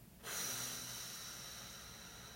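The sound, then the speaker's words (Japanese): A long, steady exhale during a breathing exercise: a soft, breathy hiss that starts abruptly and slowly fades over about two seconds. It is faint and heard alone. “吐き切るはい吸ってはい最後吐きましょう”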